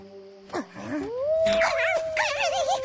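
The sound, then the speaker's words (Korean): Wolf howling nearby at a campsite in the forest: a short yelp, then a long howl that rises and holds a steady tone, ending in higher wavering, warbling notes, fairly loud and alone. “늑대 소린가? 가까이에서 들리는데?”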